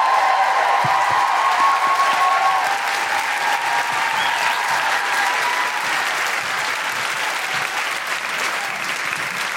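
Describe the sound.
Audience applause welcoming a 21-year-old singer to the stage: steady, dense clapping from many hands that holds loud from start to finish and eases off slightly toward the end.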